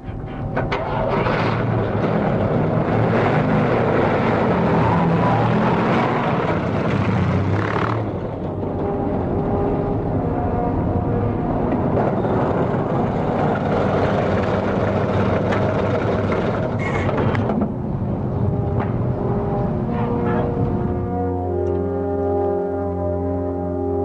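A car engine starts and keeps running, a loud, continuous rumble with a droning tonal hum throughout that settles into a smoother, steady hum near the end.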